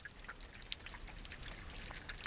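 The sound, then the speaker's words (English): Water drips and spatters from springs seeping out of bare rock in a canyon amphitheater, a faint, irregular scatter of many small, bright drops with no voices. “Below the stairway, water seeps from bare rock, an amphitheater filled with the drips and spatters of abundant springs.”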